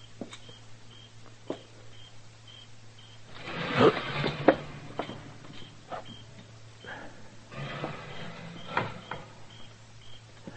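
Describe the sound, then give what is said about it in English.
A screen door jerked open makes a sudden scraping, rattling burst in the middle. A few softer knocks follow, then a second rattle later on. The whole sequence is quiet, over a low steady hum. “Now, when I jerk this screen open, I'm going to go in fast.”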